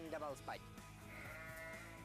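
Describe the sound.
Sheep and goats bleating at a campsite: a couple of wavering, nasal bleats at the start, followed by voices and background sound.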